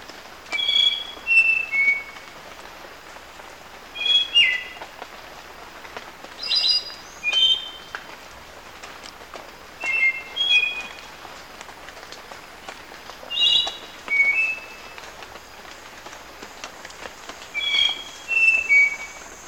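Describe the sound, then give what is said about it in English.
A spotted nightingale-thrush sings short, high, clear whistled phrases, each a quick run of pure notes, repeated several times at fairly even intervals against a quiet, steady hiss. “Spotted nightingale thrush”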